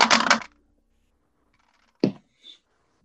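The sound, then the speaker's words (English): Dice rolled on a table during a tabletop role-playing game: a short rattling clatter, then silence, then two small clicks as the dice settle. “I've rolled an 8, then a 7, then a 6, then a 5.”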